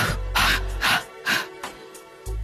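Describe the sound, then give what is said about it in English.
Breathing during a guided deep-breath exercise: a few short, soft, airy bursts of breath in quick succession, with a low hum at the start and end. “Take a deep breath in and exhale three times.”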